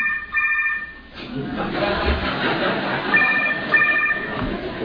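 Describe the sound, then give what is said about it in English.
A cell phone goes off during a gathering at a moderated debate. Its electronic ringtone plays in two bursts of a repeating high melody over steady background noise. “It's very disrespectful to have a gathering when a cell phone goes off. It disturbs the speakers, it interrupts their speech”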